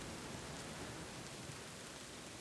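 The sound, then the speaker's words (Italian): Light drizzle falling in a forest just after a thunderstorm ends, a faint, even hiss that stays steady throughout. “Resta solo una leggera pioggerellina che bagna tutte le cose”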